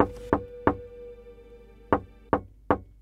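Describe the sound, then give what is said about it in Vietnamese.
Knocking comes from inside a sealed jade coffin: five sharp, hollow knocks, a pair followed after a pause by a quicker group of three, heard alone without talk. “bên trong cỗ quan tài ngọc hoàn toàn kín mít kia đột nhiên vang ra tiếng gõ.”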